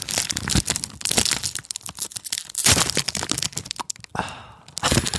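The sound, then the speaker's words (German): Aluminium foil inside a packet of Glico snack sticks being opened, a dense run of crinkling, crackling and tearing noises that continues throughout, loud and close with no pauses. “Das ist diese Alufolie, die da drin ist.”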